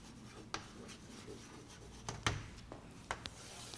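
Faint scratchy strokes of a marker or chalk drawing a stress-distribution diagram on a board, with a few sharper taps and rubs spread over a quiet background and no voices.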